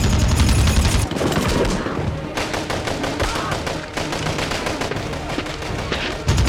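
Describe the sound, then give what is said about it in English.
Loud, relentless gunfire in a war film battle as soldiers shoot rifles from cover: dense automatic bursts and rapid single shots overlap continuously, with brief dips between volleys. “Reese rifle butts a soldier in the face, then shoots another. Lewis shoots from behind a tree trunk.”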